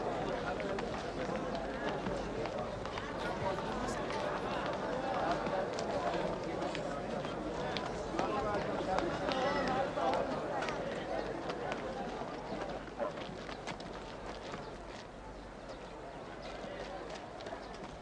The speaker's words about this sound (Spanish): ¡Corred, corred! ¡Que se van! ¡No vamos a terminar de verlos!